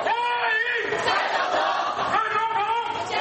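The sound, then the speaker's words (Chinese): Hundreds of people cheering and shouting outside a hotel on a bitterly cold day while waving flags: loud, sustained massed voices calling out with swelling, wavering tones. “大批台侨仍热情不减，数百人顶着寒风摇旗呐喊，热烈欢迎蔡英文总统的到访。”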